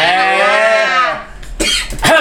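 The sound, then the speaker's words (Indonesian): Harsh, loud coughing bursts from a person come in a short cluster near the end, after a long sustained voiced note rich in harmonics. “Sampai batuk gue. Jadi batuk.”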